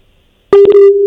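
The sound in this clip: A telephone busy tone after a call drops: a loud, steady mid-pitched tone that starts abruptly after half a second of silence and holds to the end.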